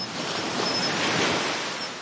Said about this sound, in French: Je profite de cette matinée pour vous envoyer un message du bruit des vagues matinales.